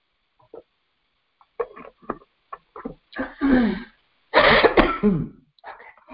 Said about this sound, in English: Ah, I have a dry spot in my throat, and it won't get away.